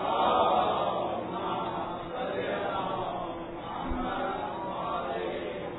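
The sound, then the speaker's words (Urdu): An audience recites salawat aloud together at a gathering on a blessed night, many voices merging into one loud, sustained chant that swells and ebbs in a few long waves. “اور اس مبارک شب کی مناسبت سے با آواز بلند ایک صلوات پڑھنا.”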